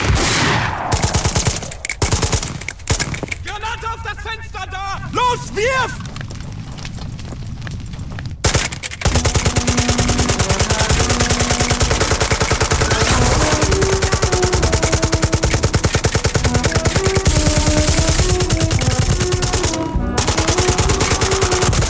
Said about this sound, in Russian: А лейтенант начинает строчить из пулемета по немцам.